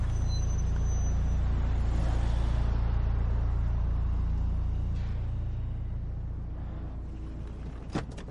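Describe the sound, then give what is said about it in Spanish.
A car's low engine rumble holds steady, then slowly fades as the car comes to a stop, ending with a brief click. “Detiene el coche.”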